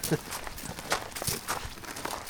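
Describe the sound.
Footsteps climbing a 160-foot fire tower, a quiet, steady series of several soft treads at an even pace.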